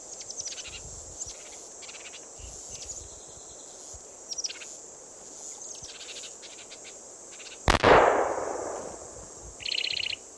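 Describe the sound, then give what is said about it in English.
A single gunshot: one sharp, loud crack with a long fading tail, set against steady chirping of crickets and other insects that continues throughout. “That was Ned's gun going off.”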